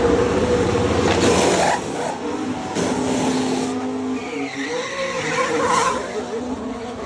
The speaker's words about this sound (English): That's the fastest pit stop ever recorded by McLaren, I think it was last season. They changed 4 11-kilogram tyres in 1.8 seconds.